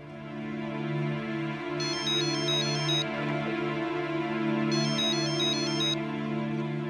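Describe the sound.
An electronic telephone ringtone plays two short bursts of rapid, high warbling notes separated by a pause, over a steady low droning hum.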